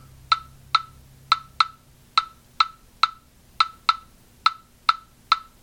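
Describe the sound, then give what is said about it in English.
Clave playing the forward 3-2 rhythm: twelve sharp, bright wooden clicks with a ringing tone, grouped unevenly in the clave pattern, loud and alone. “The forward clave, known as 3-2, which sounds like this.”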